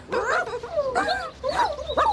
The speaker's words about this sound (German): Oh, die armen Hundebabys.